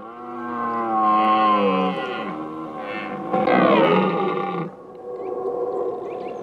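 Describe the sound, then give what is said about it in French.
Deep, drawn-out bellowing of a red deer stag in rut: a few long, loud, rough-toned roars with rich harmonics, following one another with short gaps and no voices. “Écoutez bien, mes amis, tendez l'oreille et entendez le brame du grand cerf en rut.”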